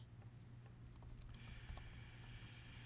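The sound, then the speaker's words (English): Typing on a computer keyboard: a faint, steady run of many light key clicks at an uneven rhythm, with no talking. “Yeah, I'm gonna type it in right now.”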